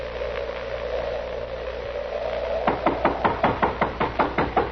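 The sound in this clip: Knocking on a door: a long run of rapid, evenly spaced loud raps begins partway through and continues to the end, following a steady low hum.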